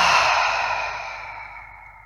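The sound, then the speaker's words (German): Breath is exhaled through an open mouth during a guided breathing exercise. A single long, airy outward sigh starts strong and fades steadily until it tails off. “Durch die Nase wieder ein und durch den geöffneten Mund wieder alles loslassen.”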